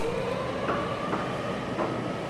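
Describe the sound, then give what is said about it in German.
A rescue helicopter's wheeled platform rolls on rails out of a hangar at the press of a switch. A steady mechanical rumble runs throughout, marked by a few brief metallic squeaks and clicks from the rails. “Der Pilot, Markus Schelt, drückt einen Schalter und sie rollt auf Schienen ins Freie.”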